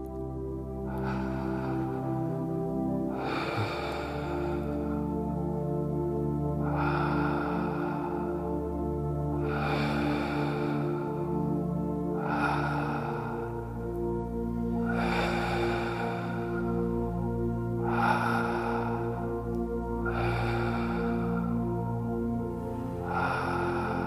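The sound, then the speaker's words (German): Slow breaths drawn in and let out through the mouth during a guided meditation. Many soft, airy swells repeat at an even pace over steady, quiet background music. “Ganz in Ruhe, langsam durch den Mund ein- und ausatmen. Lass uns zusammen zehn Atemzüge nehmen.”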